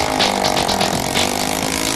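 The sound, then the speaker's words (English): A temperamental moped engine runs on a homemade boat during a build challenge, giving a loud, steady, buzzing drone with a faint pulsing rattle and no voices. “The boat boys have managed to fire up their temperamental moped engine.”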